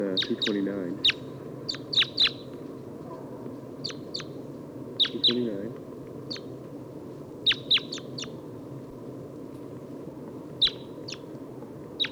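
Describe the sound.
Many short, sharp chirping calls from crossbills, type 2 call type, come in quick clusters over a steady low background hum. Irregular gaps separate the bursts of call notes.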